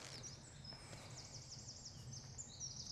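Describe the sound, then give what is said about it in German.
Song of a wren (Zaunkönig), one of the smallest local birds, heard as rapid, high-pitched trilling warbles over a steady low rumble, fairly faint throughout. “Das ist der Zaunkönig. Einer der kleinsten Vögel, die es bei uns gibt, aber mit der lautesten Stimme.”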